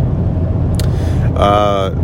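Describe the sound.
Steady low rumble of a car engine while driving, continuous and even throughout, with a person talking over it.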